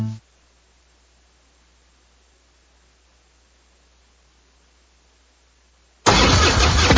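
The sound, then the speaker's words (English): A popular American motorcycle's engine bursts in loudly and roughly for the final second, after a long, nearly silent stretch. “This is the sound of a popular American motorcycle. It's the sound of freedom, the open road, really good times.”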